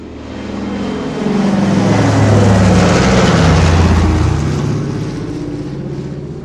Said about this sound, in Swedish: Propellerflygplan av typ DC-3 som flög mellan exempelvis Stockholm och Göteborg.